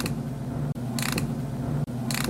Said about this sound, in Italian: Io ho suonato la chiave cricchetto.